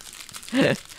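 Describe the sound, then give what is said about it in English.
Lolly wrappers being opened right next to a microphone make one short, crackly crinkling burst lasting about a third of a second, louder than the quiet background around it. “I was opening up lollies next to the microphone.”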